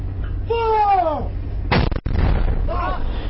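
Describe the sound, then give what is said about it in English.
Mortar rounds fired by a crew returning fire at a sniper in an Afghan valley: a sharp, broad blast cuts in midway while a man talks before and after it. “Sound you heard is the mortar crew returning fire at the sniper.”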